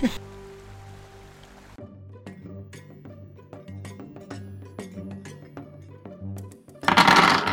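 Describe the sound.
Dice rolling across a surface: a rapid scatter of many small, hard clicks and rattles that lasts several seconds over a steady low hum.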